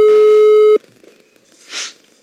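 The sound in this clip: A telephone ringback tone of an outgoing call sounds once as a steady mid-pitched beep lasting under a second, then cuts off abruptly, leaving quiet line noise and a short soft hiss.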